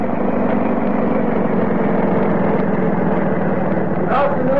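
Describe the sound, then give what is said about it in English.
An early motor car engine idles with a loud, steady, rough drone throughout, and a voice briefly enters near the end. “Noisy, smelly, vehicle contraptions ought to be prohibited by law.”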